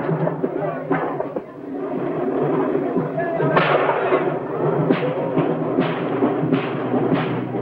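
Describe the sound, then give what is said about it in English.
Fireworks burst during a party outside a villa terrace: a few sharp cracking thuds rise over a steady, dense rumble of noise, growing more frequent toward the end. “On Gargiulo's terrace, servants at the table as the mafioso's guests spill outside to watch the fireworks display.”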